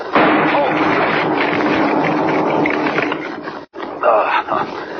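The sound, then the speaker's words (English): A blasting charge wired to a huge tree explodes in a loud, sustained roaring burst of noise that rumbles for several seconds, cuts off briefly, then surges again. “Wired that tree to a blasting charge. Blew up right in my face.”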